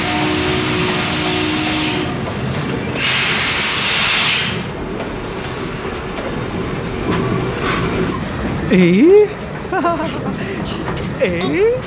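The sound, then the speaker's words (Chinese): Passenger train bound for Pukou rumbles steadily at a station, with bursts of hiss near the start, then voices and laughter rise over the continuous rolling noise toward the end. “下来开往浦口的21次列车，来时检票了。”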